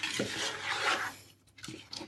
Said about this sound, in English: I'm just going to find something made of silicone so it's not going to scratch my slow cooker, just to give it a quick stir and mix everything in.